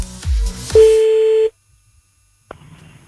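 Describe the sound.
A phone call being dialled: a few brief dialling tones, then a steady single-pitch tone lasting under a second, a short silence, and a click as the line opens onto faint noise.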